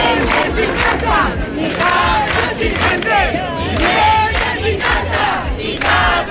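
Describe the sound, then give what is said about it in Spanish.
A crowd at a housing protest chants in Plaza de España, a city square in Badajoz, Spain: many voices shouting loud, rhythmic chants in unison, repeating phrase after phrase. “Este es el sonido de la tarde de ayer en Extremadura, en la Plaza de España de Badajoz. Tenía lugar una concentración convocada por la plataforma Inquilinato Badajoz”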